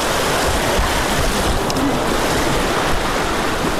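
Rushing floodwater pours past homes after overnight rains in Urozgan province, a loud, dense roar of churning water that holds steady from start to finish without pause.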